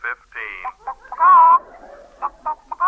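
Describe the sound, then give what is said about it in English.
Hen clucking in a hen house coop: a run of short, nasal clucks with one longer warbling cackle in the middle, fairly loud with nothing else beneath. “It's a direct wire from the hen house to my office. Now, listen.”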